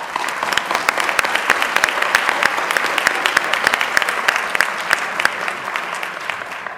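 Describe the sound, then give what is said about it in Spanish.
Audience applause at an inaugural ceremony: many hands clapping loudly and steadily in dense, continuous claps throughout. “Damos un aplauso a doña María Dolores.”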